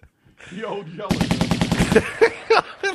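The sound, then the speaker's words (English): Machine-gun fire rings out in a rapid, evenly spaced burst of sharp cracks lasting about a second, followed by a few louder separate shots; a voice is heard briefly before the firing starts. “He used a machine gun, too.”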